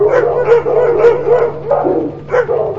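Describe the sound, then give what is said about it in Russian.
A pack of blind dogs barks in several short, yelping bursts over a low, steady hum, the barks fairly loud and irregularly spaced. “И тут же услышал лай большой своры слепых псов.”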